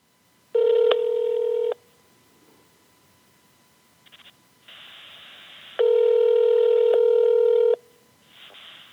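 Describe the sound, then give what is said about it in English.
A telephone call being dialed from inside a closet: two loud, steady electronic line tones, the second longer, with quieter hiss between them and a short clicking burst. “So, with shaky hands, I closed myself in the closet, for better audio, you know, and I dialed her up.”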